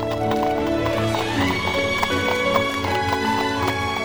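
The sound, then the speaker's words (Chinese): A horse-drawn carriage pulls away from a bridge with a steady, even clip-clop of hooves that keeps a constant loudness throughout. “布朗洛挽着罗斯，目送南茜的背影消失后，才把罗斯带回桥上的马车，默默离去。”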